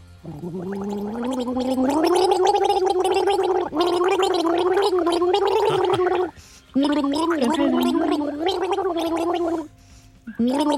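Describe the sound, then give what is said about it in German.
A person gargles the melody of a pop hit, the wavering, bubbling tone tracing sustained notes with a steady rhythm, broken by two short pauses near the middle and the end. “Hör gut zu und sag uns, welchen Song haben wir hier gegurgelt?”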